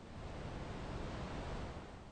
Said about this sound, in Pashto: تاوده هوا د اوبو ډیرو جریانونو لامل کېږي او له دومره لوړ ابشارونو څخه ښکته رالویږي چې د نایګران ابشارونو څخه هم لوړ دي.